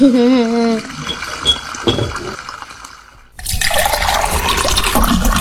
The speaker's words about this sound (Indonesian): lebih bagus kalau kerannya itu ditutup. Kan airnya jadi terbuang percuma.